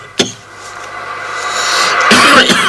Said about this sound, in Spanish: No toses así.